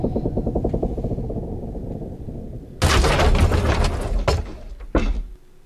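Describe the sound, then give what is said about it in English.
Video game sound effect of a base being destroyed: a rhythmic rumbling gives way to a loud, harsh crashing blast, then two sharp impacts, all without voices. “Base destroyed.”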